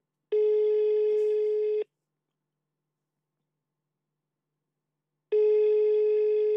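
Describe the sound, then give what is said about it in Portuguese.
Ringing tone of an outgoing telephone call: two long, steady, mid-pitched tones, each lasting about a second and a half, are separated by several seconds of silence, with no voices. “Eu estou a ligar à Sandra.”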